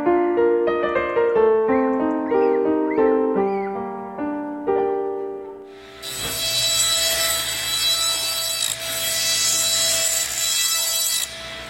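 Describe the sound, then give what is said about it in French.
Sawing of beech logs by hand for firewood, a loud, steady rasping wooden noise that takes over after a short passage of melodic music and continues to the end. “les équipes de paroissiens se relaient pour scier les faillards et empiler les bûches qui serviront à chauffer l'église.”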